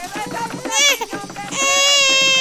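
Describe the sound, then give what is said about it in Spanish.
A newborn baby cries in a radio drama, with loud wailing bursts that build into a sustained high-pitched wail at the end. “Rosario López, una negra poeta y cuatrista, acaba de dar a luz.”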